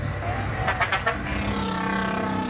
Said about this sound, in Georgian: ავტობუსები ძალიან ხმაურობენ.